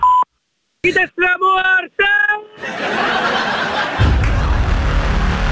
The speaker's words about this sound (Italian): Dopo il segnale acustico, registra il tuo messaggio.